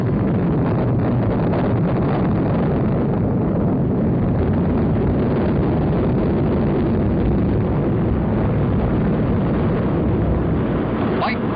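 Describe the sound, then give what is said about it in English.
Rocket launch roar as the craft carrying the chimpanzee Enos lifts off toward orbit, a loud, continuous, dense rumble holding steady across the whole clip with no breaks. “The flight is delayed almost until the deadline. But now the countdown approaches zero and blast off.”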